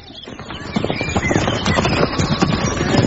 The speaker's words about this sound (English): That really is a huge beast you're riding